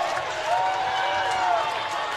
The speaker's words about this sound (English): they've won it 11-10 here at Atrium Health Ballpark. Listen to this crowd.